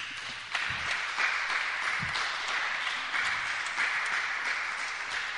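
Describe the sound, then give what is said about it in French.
A church audience applauds for the Lord Jesus with sustained, dense clapping. A few heavier claps stand out in the first two seconds, and the sound holds at a fairly even, moderate level throughout. “Acclame très fort le Seigneur Jésus.”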